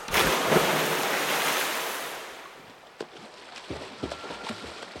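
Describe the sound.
Splashing water from someone swimming butterfly stroke: a loud rushing wash of spray for about two and a half seconds that fades, then a few faint scattered splashes and knocks.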